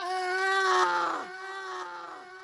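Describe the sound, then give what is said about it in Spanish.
A long, high, sustained vocal cry, the traditional shout of Huaycalachigui, holds a steady pitch with rich overtones, dips briefly in the middle, then carries on somewhat quieter. “Así lo cuentan los ancianos, que todavía recuerdan el grito de Huaycalachigui.”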